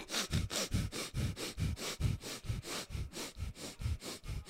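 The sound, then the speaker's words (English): Rapid breathing through the nose during a breathing exercise: many quick, forceful sniffs repeat in a steady, even rhythm, each a short airy burst, with no talk. “Oh, and the first one, we have to breathe through our nose very quickly.”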